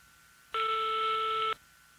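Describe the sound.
A single electronic telephone ring: one steady buzzing tone about a second long with sharp onset and cutoff, heard alone with no voices.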